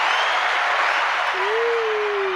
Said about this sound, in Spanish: Gran bienvenida, gran ovación, como siempre.